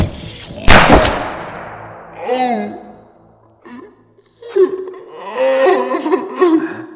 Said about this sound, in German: Selina, er hat mir ins Gesicht geschossen.